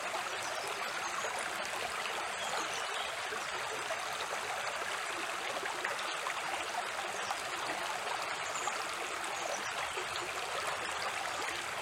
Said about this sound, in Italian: siamo sulla riva di questo torrente, piccolo torrente, abbastanza canterino come sentite